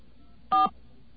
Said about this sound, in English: I'll even dial the extra digits there.